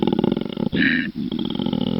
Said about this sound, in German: Ich habe mal was mitgebracht hier, das ist ein Koala-Bär.